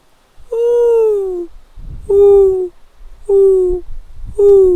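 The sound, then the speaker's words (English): A man's voice imitates the cooing of a mourning dove: four drawn-out hooting coos, each a sustained tone that falls slightly in pitch, separated by short pauses in an even back-and-forth rhythm. “they go back and forth like that, the little doveys”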